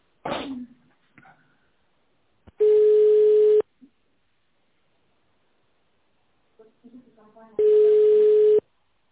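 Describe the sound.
Telephone line tones while a call is being transferred: two steady, buzzy beeps of about one second each, separated by several seconds, with brief faint voice sounds and small noises between them.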